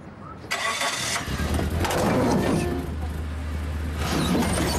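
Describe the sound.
A car engine cranks and catches, then settles into a steady low rumble; the car had been wedged against a fire hydrant on a street, with a dent in the driver's door.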